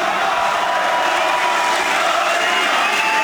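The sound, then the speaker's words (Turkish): A crowd cheering and chanting at an AK Party rally in the party headquarters hall as Erdoğan speaks: a dense, continuous roar of many voices that stays loud and even throughout. “Salonda coşku had safhadaydı. Başkan Erdoğan kürsüye çıktı. Konuşması sık sık tezahüratlarla kesildi.”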